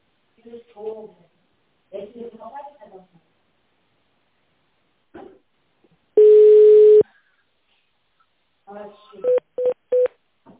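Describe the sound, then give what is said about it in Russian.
Telephone keypad tones dial an extension on an automated company phone line: one long steady tone, then three short, quick beeps. Voices talk before and between the tones. “Или наберите добавочный номер в тональном режиме.”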